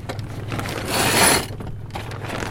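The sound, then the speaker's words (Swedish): A sailboat's mainsail is hoisted before a race start as thick ropes are hauled by hand at the mast. A rattling, rushing mechanical sound swells briefly in the middle over a steady bed of noise. “Och här lossas det tjocka tampar. Nu går storseglet upp här.”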